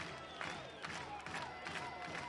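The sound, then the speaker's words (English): A baseball stadium crowd reacting during a game, heard as a faint, continuous murmur of many voices with small swells of cheering and scattered claps. “Crowd getting into it.”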